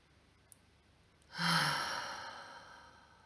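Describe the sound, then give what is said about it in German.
A single deep breath, heard alone as part of a guided exercise of breathing in through the nose and out through the mouth. It is a breathy rush that swells quickly and then fades slowly. “nimm drei tiefe Atemzüge durch die Nase ein, durch den Mund aus. Ein zweites Mal.”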